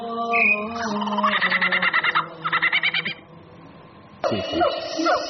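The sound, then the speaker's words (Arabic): Sparrows chirping: many overlapping high calls, with rapid repeated chirps in two dense runs and a fresh burst of calls near the end, fairly loud. “دي زقزقة العصافير.”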